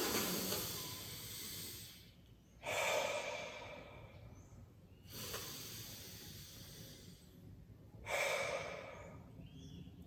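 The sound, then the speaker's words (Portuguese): Slow breathing through one nostril while the other is held shut: a few long, airy, hissing breaths, each a loud swell separated by quiet pauses. “você vai fechar essa sua narina e vai respirar 10 vezes assim.”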